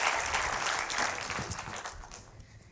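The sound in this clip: An audience welcomes a guest with dense, lively applause that starts loud and gradually thins out by the end.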